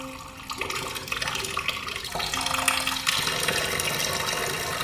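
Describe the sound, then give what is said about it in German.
Water runs steadily into a half-full basin, a continuous rushing splash that grows louder after the first second and again toward the end. “Wieso kommt so viel Wasser? Das Becken ist erst halb voll und es sind 23 Grad.”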